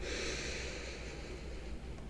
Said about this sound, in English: One more time. Breathe in,